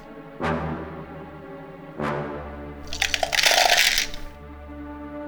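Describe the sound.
Tabletop role-playing game dice roll in a rattling, clattering burst lasting about a second and a half. Two sharp knocks come before it over a steady low background.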